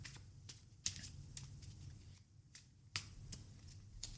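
Cutting a deck of tarot cards: a quiet string of crisp card snaps and flicks, two sharper than the rest, spaced irregularly with soft handling between them.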